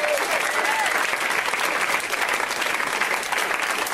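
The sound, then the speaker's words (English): An audience at a live comedy show applauds a couple in the crowd, with dense, steady clapping that holds evenly for the full four seconds. “Let's hear it for that couple.”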